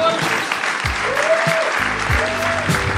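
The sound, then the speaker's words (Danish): An audience applauds a comedian with dense, steady clapping, loud and continuous throughout, with a voice audible over it. “Giv stor hånd til”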